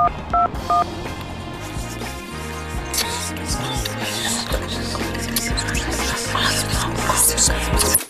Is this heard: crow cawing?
no